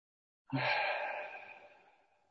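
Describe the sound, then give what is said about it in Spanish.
A single deep breath out through the mouth during a slow breathing exercise. The soft, airy exhale begins abruptly and fades gradually over about two seconds, quiet and alone. “3 o 4 respiraciones profundas. Inhalando por la nariz y exhalando por la boca.”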